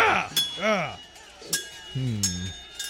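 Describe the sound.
Metallic sword clashes ring out in a sword fight between two opponents: a few sharp, bright clinks spaced apart, each with a short ringing tail, and people talking between the strikes.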